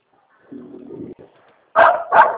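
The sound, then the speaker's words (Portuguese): A jealous female dog barking at a gate: two loud, sharp barks in quick succession after a quieter stretch. “Você viu o nome da cachorra, Sara? Ela é ciumenta, ela não deixa o outro cachorro ficar no portão”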